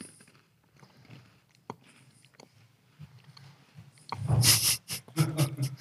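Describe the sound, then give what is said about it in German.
Crunching and chewing of a dry spelt-flour biscuit with cocoa cream filling, close and loud: a quiet stretch, then a dense burst of crisp bites and chews packed into the last two seconds. “Ich hab mal so einen trockenen Keks gegessen. Das ist nicht gut, wenn man weitersprechen möchte.”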